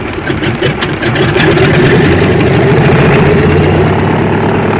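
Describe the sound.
A small airplane's engine revs hard with the brake pedal held: a loud, rough, steady drone that swells after about a second and then holds at full power.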